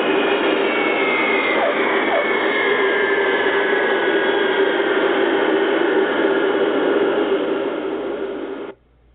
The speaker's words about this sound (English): the reversers are deployed and max reversing is applied as the large L-1011 shoots down the runway, groaning with the heavy application of brakes